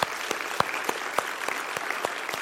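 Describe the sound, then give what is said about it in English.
Audience applause for military veterans who served from World War II to the present, a steady bed of clapping crossed by loud individual claps falling on a regular beat. “Do you give them a round of applause, please?”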